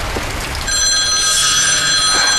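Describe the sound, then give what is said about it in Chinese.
A telephone rings late at night: a steady electronic ring of bright, high tones that starts partway in and carries on to the end, heard alone without talk. “吓了我一跳。你不许接。 你把电话给我。 不许接。 你让我接电话。”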